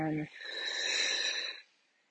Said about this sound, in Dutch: Inadem, in het midden rustig inademen